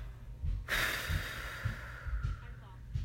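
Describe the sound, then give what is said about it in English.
A deep breath is taken during a calming exercise for anxiety: one long, airy rush swells suddenly and then fades slowly over a couple of seconds, above faint, regular low thuds. “First we have to breathe, okay?”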